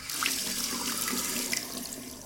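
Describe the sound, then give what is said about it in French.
Tap water runs into a bathroom sink as a toothbrush loaded with toothpaste is rinsed under the stream, giving a continuous, even rushing splash with no voices. “Vampire attrape sa brosse à dents dans son verre à côté de l'évier, presse fort le tube de dentifrice pour en étaler une petite noisette, puis il passe le tout sous l'eau avant de le mettre dans sa bouche.”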